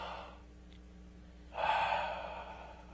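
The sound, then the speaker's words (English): A church audience takes a big, deep breath together: one broad, breathy swell of air that starts suddenly partway through, then slowly fades over a faint steady hiss. “church, I want you to take a big, deep breath today. It's okay. It is okay. God's will is going to be accomplished. Breathe deep.”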